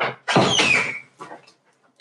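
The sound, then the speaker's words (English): A door being shut: a loud swinging rush with a brief squeak, followed by a softer knock as it settles closed. “hold on, let me shut the door.”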